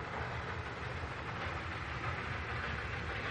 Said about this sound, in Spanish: El tren avanza por la llanura.